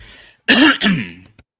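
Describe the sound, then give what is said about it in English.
A person coughs once, a harsh, loud burst that breaks into two rough pulses, followed by a small click. “Sorry about that for the cough.”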